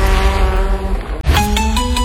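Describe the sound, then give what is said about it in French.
Racing engines roar at an autocross and sprint car championship at a circuit east of Bordeaux, a loud steady drone whose pitch jumps higher after a brief dip. “Le championnat de France d'autocross et sprintcar, c'est les samedis 3 et dimanche 4 octobre au circuit de Valeyras, à 25 km à l'est de Bordeaux”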